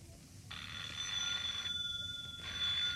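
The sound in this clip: A telephone bell rings insistently in a Japanese radio drama, with two bursts of bright, trilling ringing separated by a short pause. No voices are heard.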